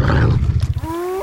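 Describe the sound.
A wild, predatory wolf gives a rough, pulsing low growl, then shifts into a sustained tonal cry that holds steady and steps up in pitch near the end. No talk is heard.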